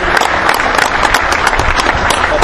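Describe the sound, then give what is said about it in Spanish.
An audience applauds at an auction to honor two team members' birthdays, with loud, dense, steady clapping throughout. “si se animan a brindarle un aplauso a Marcelo Di César y a Néstor Abundarain”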